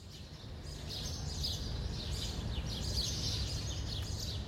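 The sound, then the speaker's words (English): Birds chirping outdoors at a world expo site in Dubai: many short, bright twitters and tweets repeat throughout over a steady low background hum, with no voices. “That sound you hear is the chirping of birds”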